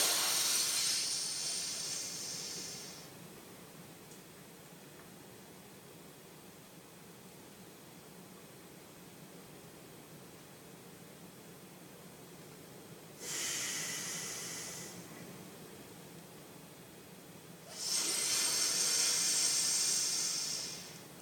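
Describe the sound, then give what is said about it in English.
Shitala breathing exercise, with slow breaths drawn in and let out. Three soft, airy hissing breaths are separated by a long stretch of near silence, and the whole passage is faint. “And Shitala is where you only breathe in through the ira and you only breathe out from the ira.”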